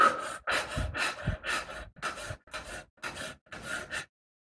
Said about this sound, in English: start to breathe, and breathe faster and faster